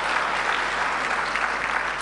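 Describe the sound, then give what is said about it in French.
An audience applauds for Côte d'Ivoire with dense, even clapping that stays loud and steady, without a break, for about two seconds. “Merci, voilà, applaudissez s'il vous plaît.”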